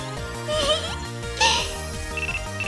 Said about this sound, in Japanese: あー、電話電源切るの忘れてた。